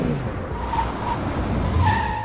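A car pulls up outside: a steady, fairly loud rumble of engine and tire noise runs throughout, with a faint squeal of tires, and no voices.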